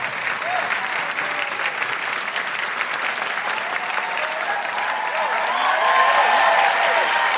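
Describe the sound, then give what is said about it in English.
Audience applause at a live show in Canberra, welcoming a poet to the stage: dense, steady clapping from a crowd that grows slightly louder toward the end. “Please put your hands together and make incredible Canberra welcoming woohooing noises for the wonderful Hangama!”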